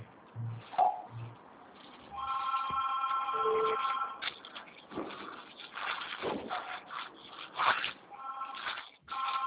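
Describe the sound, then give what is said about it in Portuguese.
A telephone ringing repeatedly, steady electronic tones that come in a couple of sustained bursts over faint, muffled background noise and shuffling. “Por isso que o telefone ele não para de tocar.”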